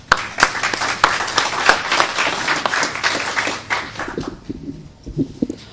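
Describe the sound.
A church audience applauds to welcome a speaker, with dense clapping for about four seconds that then thins into a few scattered claps.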